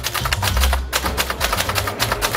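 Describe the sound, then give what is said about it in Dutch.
Rapid typing on an orange typewriter in a library in Zwolle gives a dense, even stream of many sharp mechanical clacks over a low rumble. “De typemachine vergt een andere focus als je schrijft.”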